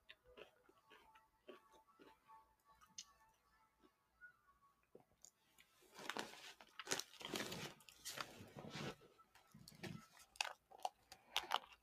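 Someone eats a unicorn ice cream drumstick topped with crumbles. Sparse crinkling and soft ticking of handling come first, then louder crunchy bites and chewing through the second half.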